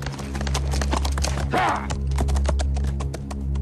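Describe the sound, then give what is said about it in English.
Hoofbeats of a group of riders' horses galloping across a meadow: rapid, evenly repeating clops running throughout over a low, steady hum. “On the hillside down below them, a group of riders gallop across a meadow.”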